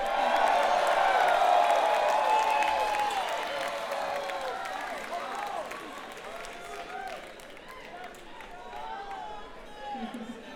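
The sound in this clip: A concert crowd applauds and cheers to welcome a bass guitarist and harmony vocalist, with dense, continuous clapping and shouts that are loudest at first and then ease slightly but keep going.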